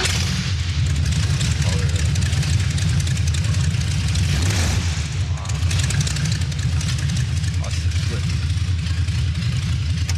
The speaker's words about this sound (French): Ouais, voilà, puis le son du V8 quoi. Bah justement on se l'écoute.